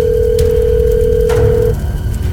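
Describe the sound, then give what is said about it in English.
A telephone dial tone hums steadily at a moderate pitch before a phone call, with a couple of faint clicks over it, then cuts off and leaves a noisy line. “Hold on, I have to make one last phone call.”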